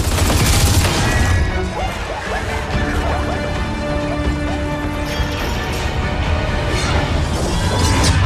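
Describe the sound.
Gunfire in a Gears of War 4 cinematic: a loud, sustained barrage of shots, crashes and heavy impacts that stays intense throughout, dipping slightly midway before surging again.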